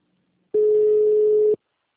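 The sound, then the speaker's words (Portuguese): A telephone tone sounds while a call is being transferred: one flat, steady, mid-pitched beep lasting about a second, heard alone. “transferir para minha colega Lidiane. Um instante, por favor.”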